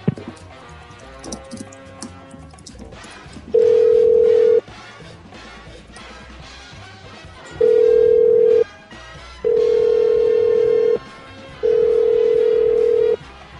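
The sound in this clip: A telephone line rings unanswered while the caller is on hold: four long, steady ringback tones separated by gaps of uneven length over faint background noise.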